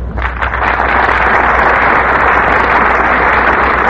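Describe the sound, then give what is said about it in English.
A radio studio audience applauds a Hollywood star: dense, steady clapping that holds loud and even throughout with no voices over it. “And our studio audience is giving him a big hand, for there's no more popular star in all of Hollywood than Gene Herschelt.”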